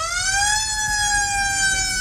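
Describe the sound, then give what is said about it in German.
A siren wails without a break, a loud, bright tone rich in harmonics that climbs slightly at the start and then holds nearly steady throughout, with no voices. “Leute, wenn wir an Sirenen denken, denken wir in der Regel erstmal an sowas hier.”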